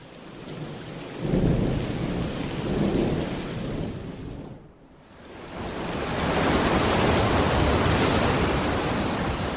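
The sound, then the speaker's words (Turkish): Heavy rain and thunder from a storm at sea battering a ship. A dense, loud roar of rain with deep rumbling swells stays steady throughout, dips briefly near the middle, then builds back to full strength and holds. “Bu fırtına bizi fena yakaladı.”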